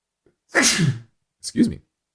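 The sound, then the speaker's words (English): A single loud human sneeze: a sharp, breathy burst followed by a shorter second burst, with no talk around it. “had a nice sneeze there.”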